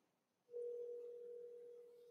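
A steady electronic ringing tone like a telephone's starts abruptly and holds at a single mid pitch, sustaining and easing off slightly in loudness, faint and without talk.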